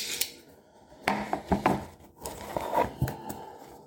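Packing tape being cut on a watch box, faint crisp snips and scraping rubs in a few short bursts, quiet throughout.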